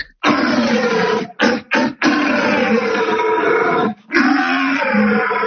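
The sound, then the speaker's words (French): A red deer stag bellows an aggressive rutting challenge to a rival stag, a loud, rough, deeply harmonic roar delivered in several sustained bursts broken by short gaps, with no talk. “il y a un autre cerf qui a entendu ce cerf bramer et qui va essayer de venir en concurrence avec lui. Et là, c'est un cri, un rare, un peu plus agressif hein”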